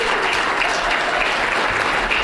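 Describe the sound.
Applause from the audience at a local candidate forum for the candidates and panelists: continuous, thick clapping from many people, steady and fairly loud throughout, with no talk over it.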